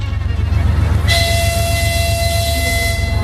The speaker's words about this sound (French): un long train d'une dizaine de wagons peints en vert quitte Chisinau, la capitale moldave, pour rejoindre Moscou au terme d'un voyage d'une journée